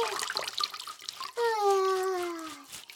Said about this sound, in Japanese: 背中を流してもらうのってこんなに気持ちいいもんだったんだね。